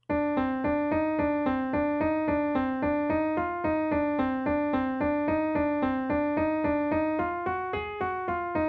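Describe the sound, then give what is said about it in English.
A running accompaniment line from a spy-style TV theme: a rapid, steady pulse of many repeated tonal notes in the mid range. The pitch steps upward near the end, and no voices are heard. “And one of those things is this motif, this running line that really isn't part of the melody that Lauren created for the theme. It's kind of like an accompanying line, but it sounds like this.”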